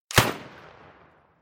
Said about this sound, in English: Behind him, Mrs. McCumber takes aim with a rifle and fires,